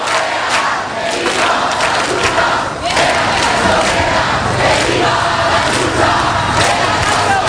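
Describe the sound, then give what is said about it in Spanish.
A protest crowd at Puerta del Sol, Madrid, chants "¡No pasarán!", a loud, dense mass of voices with a steady rhythmic pulse throughout. “Pues no pasarán, lo estáis escuchando.”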